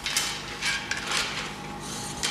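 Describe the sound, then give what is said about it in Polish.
Mechanical clicks and light rattling as a film reel, mounted upside down, is unwound by hand on a wooden editing table. The sound comes in several short, bright bursts over a faint steady background. “Film został założony do góry nogami. Trzeba to po prostu odkręcić.”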